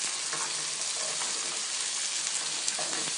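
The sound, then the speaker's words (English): A meatball sizzles in a frying pan with mirepoix, making a bright, steady hiss scattered with small pops and crackles. The sound is fairly loud and continuous, with no talk. “Go ahead and throw the meatball in here.”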